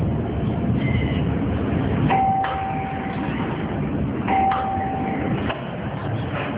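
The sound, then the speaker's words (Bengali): A doorbell rings twice at a home's front door, each a steady, clear electronic tone over a constant loud rumbling background. “Office থেকে এসে Shafiq calling bell বাজাতে ভেতর থেকে স্বাভাবিকভাবে দরজা খুলে গেল।”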